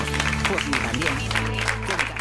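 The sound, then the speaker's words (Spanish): Audience applause greets a guest, a steady, fairly loud patter of many hands clapping that carries on without a break. “Un aplauso para Laura Márquez.”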